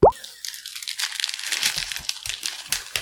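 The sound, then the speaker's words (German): Crinkling wrappers and crunchy bites come from someone eating Kinder chocolate bars and Schokobons: a busy run of crackly rustles and sharp little crunches. “Hast du deine Kinderschokolade gegessen? Ich will gerade mal durchzählen. Ich habe 8 Schokobons und einen Kinderriegel verputzt.”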